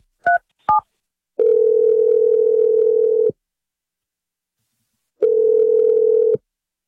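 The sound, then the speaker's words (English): Placing a telephone call: two short keypad beeps, then two long, steady, mid-pitched tones separated by a pause of silence, with no talking. “Here we go. I'm calling him right now.”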